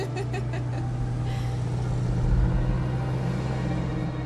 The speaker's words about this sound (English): Driving across a bridge into the mountainside, I guess.